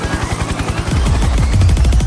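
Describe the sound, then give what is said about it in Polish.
Helicopter sound effect with loud, rapid, low rotor thumping in steady pulses that grows denser and louder midway, with no voices. “Ale z dziennikarskiego obowiązku to helikopter teraz w Trójce, proszę.”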